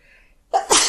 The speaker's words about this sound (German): Gesundheit, ne? Richte ich mal Gesundheit.